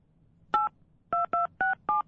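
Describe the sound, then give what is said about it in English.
Five telephone keypad tones dial the time-of-day number, each a short, clean dual-pitch beep, the first standing alone and the last four following in quick, even succession. “Call a phone number to get the exact time.”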